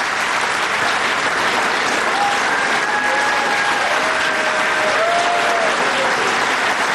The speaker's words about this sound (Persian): تشکیل گسترده ی حضار رو میبینید.